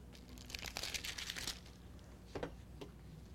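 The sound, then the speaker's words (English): Something is ripped off during a sermon: a quiet crinkly tearing that lasts about a second, followed by a shorter tear. “Excuse me as I rip something off this.”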